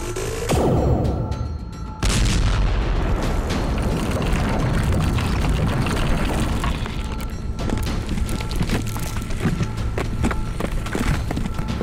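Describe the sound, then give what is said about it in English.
A loud explosion erupts with a booming burst, then a second, heavier blast hits about two seconds in. After that comes a long, dense roar and rumble that stays strong to the end. “won't the explosion destroy us, too? Not if I fly us outside at top speed.”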